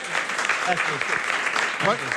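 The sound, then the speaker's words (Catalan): Applause: steady, dense clapping that runs throughout, with people talking over it. “Aplaudiu-me.”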